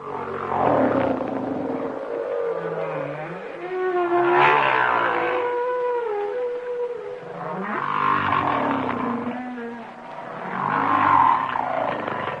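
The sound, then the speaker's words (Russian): A giant humpback whale vocalizes underwater in long, loud moans and wavering tones that glide up and down. Lower groans and brighter higher cries overlap in a continuous, eerie song. “Вначале голос гигантского горбатого кита.”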